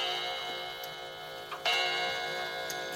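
Soft, regular ticking of a grandfather clock, with a few faint ticks standing out over a quiet, steady hum.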